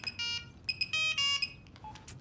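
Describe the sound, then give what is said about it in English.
A telephone ringing with an electronic ringtone: short bursts of bright, warbling tones in an uneven pattern, fairly quiet, followed by a few fainter beeps. “She grins as the phone rings.”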